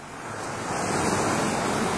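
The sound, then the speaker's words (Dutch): Sea waves rush in a steady, broad surf roar that swells slightly louder over two seconds, with no voices over it. “Oh, dat voelt fris aan. De zee.”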